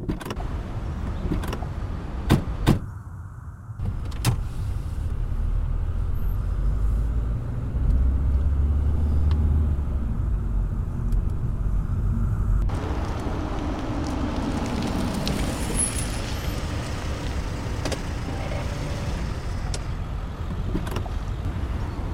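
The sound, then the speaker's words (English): A car engine rumbles steadily as the car drives around to the back of a building during a pursuit, with a couple of sharp thumps early on and a shift in tone about halfway through. “Kate, you and Jameson take the front. I'll drive around the back.”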